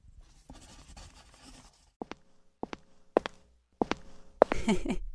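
Pen scratching out an autograph for a fan's daughter: a stretch of soft, continuous scratchy strokes, then several sharp, separate taps and ticks, ending in a louder burst of scraping.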